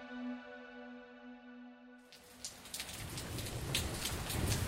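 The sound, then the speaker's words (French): Cold, heavy rain falls in the streets of Bruges, heard through an umbrella. A sustained musical tone cuts off abruptly and gives way to a dense, steady patter of drops that grows slightly louder. “Il fait très froid, il y a beaucoup de pluie, je galère un petit peu à tenir mon parapluie”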